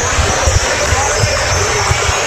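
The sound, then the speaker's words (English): A basketball dribbled on a fieldhouse court late in the fourth quarter of a game, with repeated dull low thumps of the bounces under a steady crowd murmur and talk. “Kim will dribble around, guarded by Kobe Wendell.”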